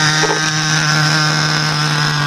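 Motor of a remote-controlled model helicopter running with a loud, steady, buzzing whine over a strong low hum, holding an even pitch and level throughout.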